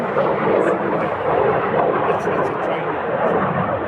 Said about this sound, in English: that's got to be a training plane. I mean, tiny, really fast. Yeah. Often they come in pairs. And jet black.